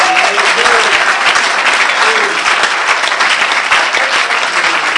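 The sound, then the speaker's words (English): Steady applause from an audience, dense and loud, carrying on without a break for about five seconds. “I wasn't looking for applause”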